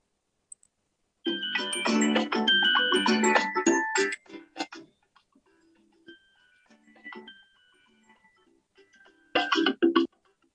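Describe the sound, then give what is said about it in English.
Prize wheel spun for a gift card giveaway: a bright electronic chiming run, then sparse, quiet ticks as it slows, ending with a short burst of chimes. “we're doing $25 Amazon gift card. And it was gifted by CCB. And let's spin the wheel.”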